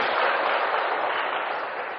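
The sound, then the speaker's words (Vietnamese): Dense applause from an audience at a Buddhist dharma talk: a steady, crackling wash of many hands clapping together that holds at an even level for about two seconds, with no voices. “cho chào pháo tay chung với tất cả ba vị.”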